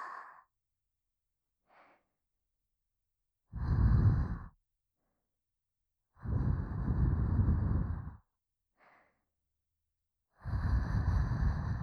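Breath blown out onto someone in three long, forceful, breathy puffs, with a few shorter, softer exhalations between them and no talk.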